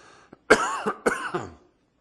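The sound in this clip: A short bout of several raspy coughs with some throat clearing from a speaker reading Scripture aloud, loud and abrupt, heard alone with no talk in between.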